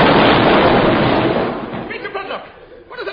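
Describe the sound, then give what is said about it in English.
A naval sloop's shell fire bursts out as a heavy, roaring blast that fills the first second and a half, then slowly fades into quieter sound with voices. “Look, a naval sloop and it's firing shells addressed to us.”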